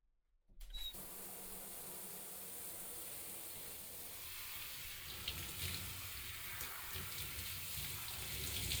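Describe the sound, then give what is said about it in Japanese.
Water runs steadily as hair is rinsed at a salon shampoo chair, starting abruptly and then continuing as an even, quiet rushing hiss. “髪を軽く流していきますね。”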